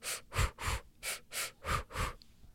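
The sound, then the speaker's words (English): Rhythmic mouth breathing used as a labor-contraction technique, paired breaths in and out through the mouth: seven short, even puffs of breath in a quick, steady rhythm, with no talking. “a breath that helped me a ton is breathe in through your mouth 2 times, out through your mouth 2 times. So I'd go”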